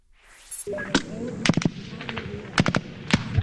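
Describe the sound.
Gunfire during a U.S. Marine offensive in the Afghan city of Marja: many sharp, loud shots in irregular clusters over a steady rumbling background, with muffled voices faintly beneath.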